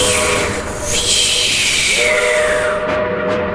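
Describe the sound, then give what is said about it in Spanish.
A long steam whistle from a coal-fired steam train sounds as a sustained, loud tone over hissing steam and a low, steady rumble, its pitch gliding gently downward partway through. “Empezaban las ruedas a traquetear sobre las vías. Y un silbido largo acompañaba el humo que se deflecaba como una cabellera.”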